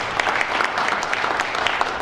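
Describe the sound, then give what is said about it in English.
Audience applause filling a village hall on a Friday evening at a Christmas event, a dense, steady patter of many hands clapping without pause. “Ladies and gentlemen, thank you very much indeed for your very warm round of applause.”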